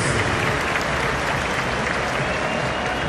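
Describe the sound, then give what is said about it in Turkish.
A stadium crowd applauds as a substituted Fenerbahçe player leaves the football pitch, a loud, continuous wash of clapping and crowd roar with no breaks. “Alkışlarla oyundan çıkıyor.”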